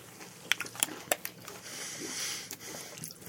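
Crunchy chewing of Cheez-It crackers eaten with cranberry juice: a few crisp, sharp bites early on, then softer, steady mouth-chewing and crinkling.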